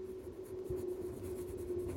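Faint scratching of handwriting, a pen moving in short strokes across paper, sits over a steady low hum with no voices.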